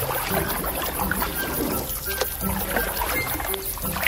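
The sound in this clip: Water sloshes and trickles around a boat returning across the water, a boat said to have a large hole in it. A dense, steady wash of splashing runs throughout at an even level, with no distinct strokes.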